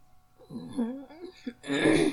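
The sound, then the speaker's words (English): A throat being cleared of phlegm: a low voiced groan, then a louder, raspy, rough burst at the end. “Fucking phlegm.”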